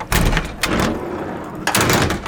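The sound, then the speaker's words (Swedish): Hatches opening inside a Stridsfordon 90 infantry fighting vehicle: a few loud, heavy metallic clunks and thuds, spaced apart over a couple of seconds. “Här sitter vi, sex stycken soldater, och ja, de här luckorna här går ju att öppna.”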